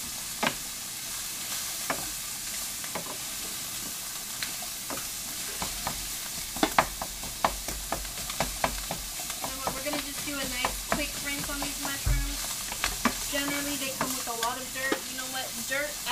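Food sizzles while cooking in a pot, a steady hiss broken by many sharp clinks and scrapes of stirring that run throughout.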